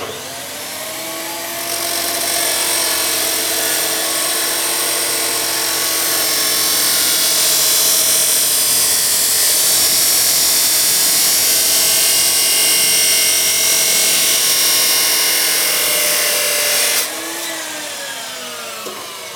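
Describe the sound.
A power grinder scrubs rust off a metal pipe to prepare it for welding. The loud, steady, high abrasive whine with a ringing tone holds for about fifteen seconds, then cuts off and winds down.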